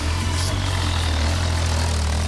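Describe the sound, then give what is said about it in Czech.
A motorbike engine running in a steady, even low rumble that holds the same pitch and level throughout, with no voices. “Áno, hele, motorka”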